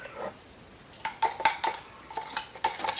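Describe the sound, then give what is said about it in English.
An old stir stick being rinsed off gives a handful of light, sharp clinks and taps against a container in an otherwise quiet clip. “Rinse off the old stir stick.”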